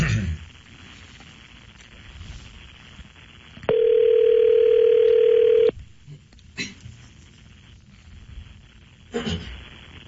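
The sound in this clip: A telephone ringback tone sounds once after dialing: one loud, steady, even-pitched tone lasting about two seconds, set between quieter stretches of low line noise and a few soft clicks.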